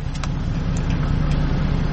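A car engine running steadily after being started for a driving lesson in a manual-gearbox car, a constant low rumble and hum with a few faint brief ticks above it and no talk.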